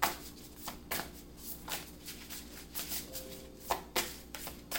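A deck of tarot cards is shuffled and cards are drawn. It sounds like soft, quiet bursts of riffling and flicking that recur many times with short gaps in between.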